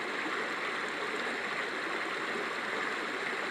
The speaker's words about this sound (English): Gotta keep following this stream